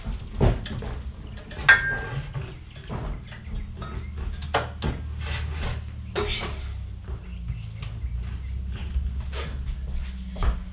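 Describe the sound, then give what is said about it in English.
Clatter of a mixing bowl being taken out and handled in a kitchen while making whole-grain pancake and waffle mix waffles: many light knocks and clinks of dishes over a steady low hum. “So, next up, grab a mixing bowl.”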